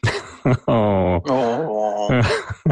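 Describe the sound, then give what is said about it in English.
A voice imitating pathetic whining: loud, drawn-out nasal wails and moans in a few sustained phrases, the pitch wavering and sagging, with no other sound. “He's just going to whine pathetically.”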